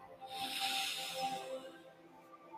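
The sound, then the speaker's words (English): A slow, deep breath drawn in through the nose makes a faint, airy hiss that swells and lingers over soft sustained background tones. “Into your nose and out through your mouth. One last deep breath in”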